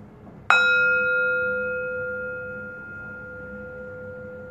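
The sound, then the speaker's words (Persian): One bright strike on a bell rings out alone, its clear tone humming and slowly fading over several seconds. “اجازه بدین فرکانس این زنگ افکار مزاحم رو دور کنه.”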